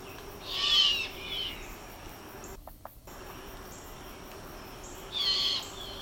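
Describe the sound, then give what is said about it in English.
Mourning dove cooing: two soft, hollow, owl-like coos separated by a long quiet pause, the second coo coming near the end. “that last little bit was classic Mourning Dove. So you can see why people would think, wow, we have an owl right here. But it's not an owl.”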